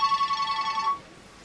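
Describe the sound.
A telephone rings with an electronic ringtone of rapid, high repeating beeps that run for about a second and then stop.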